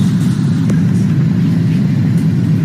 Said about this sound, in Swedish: Och så älskar jag när man sitter i vagn. Vagnen är ganska full och det låter så här.